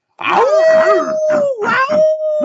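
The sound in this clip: Two people imitate a wolf howl as a college football team's cheer: a loud, sustained, wavering vocal tone that holds steady, dips briefly, then levels off again, while a second voice breaks in and out over it.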